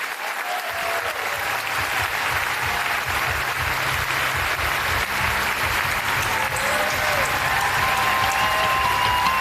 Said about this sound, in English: Ladies and gentlemen, it is my honor to welcome to the stage the Vernon Jordan Distinguished Professor in Civil Rights, the founder of the 14th Amendment Center for Law and Democracy at Howard Law School. Please give it up for Sherrilyn Ifill.